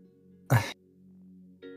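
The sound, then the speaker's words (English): A single gentle throat clearing: one short, rough burst that stands alone over a low steady hum and then fades back to quiet. “I'm just going to kind of stand there for a moment before kind of gently clearing my throat.”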